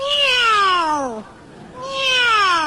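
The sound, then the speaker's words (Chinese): A human voice imitates a cat's meow with two loud, drawn-out calls, each sliding downward in pitch, separated by a brief pause. “这是猫。”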